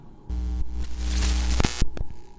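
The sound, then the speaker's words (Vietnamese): Two head-mounted flashlights buzz and crackle, then short out. A steady electric hum with static builds under crackling noise, gives a few sharp pops, then cuts off abruptly, followed by one faint click. “Ngay tức khắc hai cái đèn pin treo trên đầu của hai người đột nhiên rè rè rè rè một cái, rồi chập tắt ngấm.”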